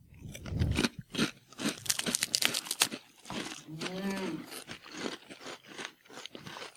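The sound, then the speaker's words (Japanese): Thick potato chips are crunched while eaten, a burst of crisp bites and chewing in the first seconds, then scattered crunches with people talking between them. “これポテチ？ こんなんさ。 いい、食べて。”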